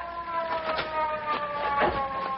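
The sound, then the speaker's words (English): A police car siren wails in a sustained, fairly loud tone with several pulsing swells running through it. “here comes a police car”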